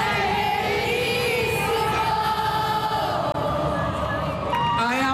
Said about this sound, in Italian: Sono mancato? Chiede al pubblico e con il pubblico scherza. La risposta è un coro unanime.